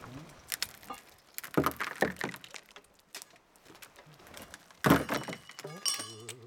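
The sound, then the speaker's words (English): Sharp cracks and heavy knocks as a rock slab splits off a boulder, a few loud abrupt bursts among scattered lighter clatter, with a voice briefly audible near the end. “It's splitting in four different ways, so we're hoping it sort of lifts up like this.”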